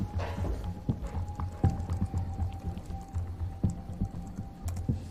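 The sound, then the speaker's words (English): Typing on a silver laptop keyboard during a web search: a run of soft, irregular key clicks, fairly faint, over a steady low hum. “Anna pulls out her silver laptop and types into Google, GPS tracking software swipe.”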